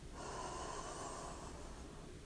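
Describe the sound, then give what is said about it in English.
A slow, deep inhale through the nose: a soft, steady, airy hiss lasting about a second and a half, quiet and heard alone. “Enjoy a very deep breath in through the nose”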